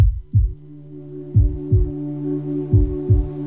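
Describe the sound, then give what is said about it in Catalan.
A loud heartbeat pounds in a few double thumps, each a deep low lub-dub pair, with a steady low hum running beneath the beats. “Sents el cor? Batega fort, oi?”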